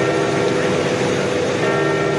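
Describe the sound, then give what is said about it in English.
Church bells ring out in St. Peter's Square to mark a pope's death, a dense, continuous peal of overlapping tones that stays steady and loud throughout. “Bells rang out in St. Peter's Square after the sad news.”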